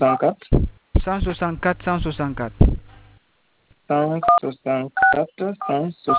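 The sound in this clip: Telephone keypad tones as a number is entered into a phone's message centre setting: two short, clear beeps sounding under a person's speech, with pauses between spoken phrases.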